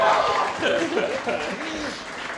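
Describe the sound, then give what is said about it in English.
An audience cheers and applauds at the opening of a live comedy show. The sound is loudest at the start and gradually tapers off, with voices mingled in. “I am so glad you cheered because I didn't have a plan for if you didn't.”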